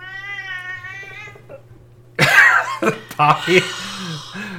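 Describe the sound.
A cat gives a drawn-out, tonal meow, followed by a few harsh bursts like throat-clearing or coughing after a short pause.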